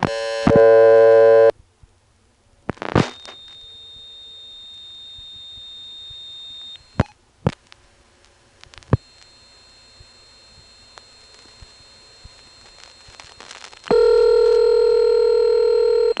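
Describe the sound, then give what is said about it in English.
Telephone line sounds from a 1978 call dialed to zero from Bowling Green, Virginia: a loud tone at the start, then clicks and a long, quiet steady tone broken by sharp clicks, ending in a loud steady tone. “Which I can prove, actually, because in 1978, from Bowling Green, Virginia, I dialed zero.”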